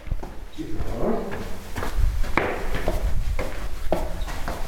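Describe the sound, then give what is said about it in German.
Footsteps climb a staircase as a series of irregular thuds and scuffs at moderate loudness, spread across the whole stretch over a faint background murmur. “Wir gehen jetzt über die Treppe.”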